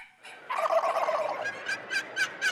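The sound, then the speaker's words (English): A wild turkey gobbles: a rapid rattling burst followed by a few short, sharp calls, fairly faint and alone without voices. “It is the call of the wild. The wild turkey.”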